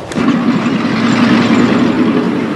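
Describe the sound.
A diplomatic car's engine runs loud and steady, a continuous mid-pitched rumble with no breaks, for a car leaving the capital during the 1917 Russian Revolution.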